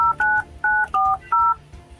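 Touch-tone keypad beeps as a telephone number is dialed: five crisp dual-tone presses in quick, slightly uneven succession, each lasting a fraction of a second with short gaps between.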